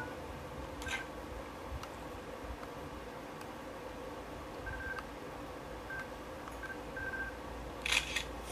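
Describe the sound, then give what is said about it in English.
Camera shutter in the Zelda Champions' Ballad DLC video game: a few faint, short electronic beeps, then a quick burst of shutter clicks near the end over steady background hiss. “I'm gonna take a selfie, though.”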